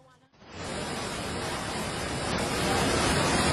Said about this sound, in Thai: ตอนนี้น้ำป่าไหลแรงมากค่ะ